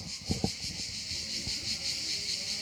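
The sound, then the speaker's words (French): Cicadas singing in southern France: a steady, high buzzing drone with a rhythmic pulsing throb, joined by a couple of low bumps early on. “C'est pas les grillons. Hein. Cigale. Cigale. On est dans le midi.”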